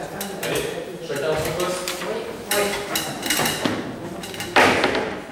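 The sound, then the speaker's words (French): Plates and glasses clink and knock as they are handled at an art dinner, one of them the artist's own plate. A series of irregular clatters and thuds, some louder than others, runs alongside some talk. “Donc on commence, la première qu'on descend, c'est l'assiette de l'artiste, Raoul Marek. La numéro 2. Alors quelqu'un attrape. Voilà pour le verre.”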